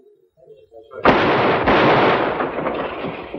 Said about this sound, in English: Two of you lob a couple of shells through that back window.